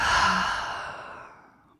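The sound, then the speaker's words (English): A deep breath during a guided reflective practice comes as a single long, breathy, sigh-like exhale that starts fairly loud and fades steadily over nearly two seconds, with no talking. “we'll take a deep breath in and a deep breath out.”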